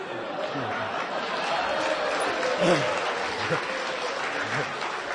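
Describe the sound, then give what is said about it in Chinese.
Audience applause during a comic wordplay routine, a sustained crackling clatter of many hands throughout, with voices murmuring underneath. “给你鼓掌呢，接着说”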